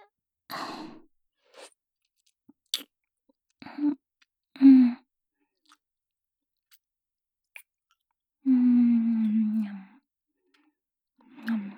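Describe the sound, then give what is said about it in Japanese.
A person chews and eats a whitening food for the first time. Soft wet mouth clicks and chewing noises come in scattered bursts, mixed with low hummed murmurs and one longer voiced 'mm'-like sound. “人生初めての美白、どんな味なのか食べてみます。いただきます。”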